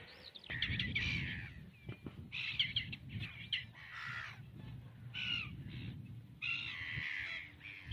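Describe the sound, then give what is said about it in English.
Black-tailed godwits call while chasing each other along a coastal estuary, giving many repeated harsh, bright calls in overlapping bursts over a steady low background rumble. “Those are the calls of black-tailed godwits chasing each other.”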